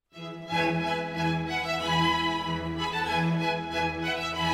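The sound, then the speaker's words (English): An orchestra's bowed string section plays sustained, full-bodied notes that swell gently in volume, with no talking. “Sitting in the front row are the musicians playing instruments with bows. They sound like this.”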